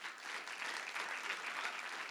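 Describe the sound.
An audience at Whitworth applauds to welcome a guest speaker: even, continuous clapping from many hands, fairly soft and steady for the whole short stretch.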